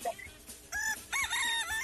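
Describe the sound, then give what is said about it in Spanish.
Chickens and roosters crowing and clucking: a few short clucks lead into two bright, drawn-out rooster crows that follow closely one after the other. “Hasta las gallinas y los gallos ya se metieron.”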